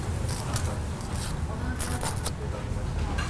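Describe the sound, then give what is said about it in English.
Gift wrapping paper crackles and tears, its rough rustling steady throughout with sharper crisp bursts of ripping here and there. “It's taped with another layer of wrapping, which has a really lovely illustrated bow on top of it. I know, but I don't really want to rip this, but I'm gonna have to.”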